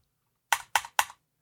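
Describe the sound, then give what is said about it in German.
Typing on a computer keyboard: three crisp, evenly spaced key clicks, fairly faint, in otherwise quiet surroundings. “So, ich tippe jetzt auch noch.”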